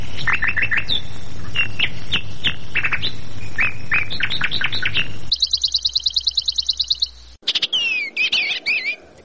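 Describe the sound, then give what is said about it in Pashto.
Bird song from a songbird: many quick, high chirps and whistled notes in a lively run, then a rapid, evenly repeated trill, then more varied whistling phrases, all fairly loud and with no other sounds. “دا مرغه د خپل څښتن په غوښتنه یوه داسې سندره غږوي چې بل څوک یې له اورېدو سره سم ویده کیږي”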